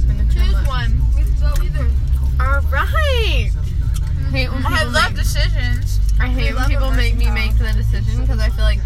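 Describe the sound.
Car driving, heard from inside as friends are driven home: a constant low road rumble sits beneath continuous lively talk from several voices.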